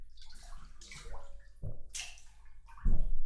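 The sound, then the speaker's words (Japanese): Hot bathwater splashes and sloshes in a tub as it overflows, with a few separate surges of water rising over a low watery background and no voices. “ザブ ーン。お湯あふれてる。”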